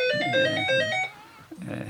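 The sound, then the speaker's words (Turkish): A telephone rings with a melodic electronic ringtone: several clear, stepped tones play in a quick tune for about a second, then the ringing stops. “O kadar çalıyor ki telefon.”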